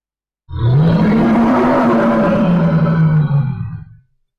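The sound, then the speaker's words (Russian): A deafening primal roar from a huge beast: one loud, low, rumbling bellow that starts abruptly, holds steady for about three and a half seconds, then cuts off. “Воздух сотрясает оглушительный первобытный рев.”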